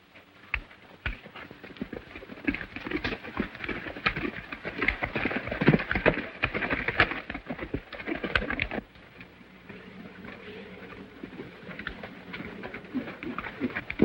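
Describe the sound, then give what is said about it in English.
Hooves of a horse and a led pony clop over ground as the riders descend a bluff toward a cabin. The footfalls are irregular and fairly quiet, denser in the first half, then lighter and sparser. “Later, Zanti and all of his gang ride to the bluff above the cabin. When I signal, you know what to do. Leading a pony, he descends.”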